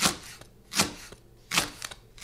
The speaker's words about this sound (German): wird der Lauch geschnitten in schöne feine Streifen.